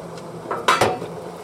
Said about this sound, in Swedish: Nu tar jag av locket här.